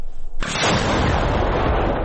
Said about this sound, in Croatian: 24. artiljerijska brigada koristi američku haubicu u blizini grada Časiv Jar. Obično pucaju na pješadiju koju uoče na prvoj liniji fronta